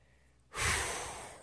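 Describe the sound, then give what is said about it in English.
One long, deep breath, drawn in and let out in a single airy rush. It starts strongly after a silence, fades slowly over about a second and stops abruptly. “took a deep breath.”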